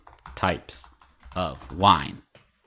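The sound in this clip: Someone types on a computer keyboard to search Google. A few light key clicks are mixed with louder voiced sounds.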